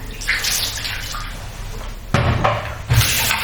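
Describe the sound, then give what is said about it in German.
Warm running water rinses hair after an acidic hair rinse mixed nine to one, a steady loud rushing splash that surges louder twice toward the end. “spüle das nochmal mit Warmwasser so ein bisschen nach.”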